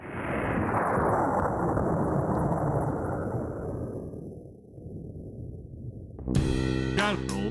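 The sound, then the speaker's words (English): A fictional hydrosonic missile launching: a loud, sustained roar that gradually fades over several seconds, then a sudden sharp burst followed by a bright, ringing, noisy rush. “That's it. Fire up the hydrosonic missile.”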